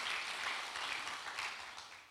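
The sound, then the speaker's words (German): Faint audience applause, a soft, steady patter of many hands clapping that tapers gently toward the end. “Ein Applaus für Lea.”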